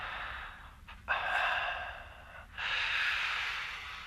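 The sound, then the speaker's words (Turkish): Breathing from a silent caller on an open phone line: a few long, hissy breaths with sharp onsets, steady and fairly loud, with no talking. “Oo, nefes sesleri geliyor.”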